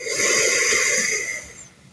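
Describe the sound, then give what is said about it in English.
Deep breathing during a guided relaxation exercise, heard as a long, airy breath through the mouth that holds steady and then fades away over about two seconds. “So let's everybody breathe in, filling up your belly. And breathe out through your mouth. Breathe in.”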